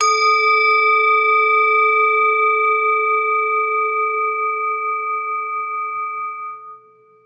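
A struck metal singing bowl, handmade and tuned to A, rings out in a single long sustained tone layered with bright, steady overtones, holding loud and even before fading away near the end.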